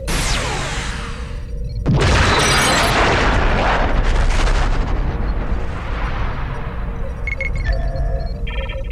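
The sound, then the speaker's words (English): Disruptor fire and explosions as an attacking ship destroys a space station in a sci-fi strategy video game. A sharp blast sets off loud, sustained rumbling booms that roll on to the end. “IRW Terex is attacking Deep Space Nine. IRW Terex firing disruptors.”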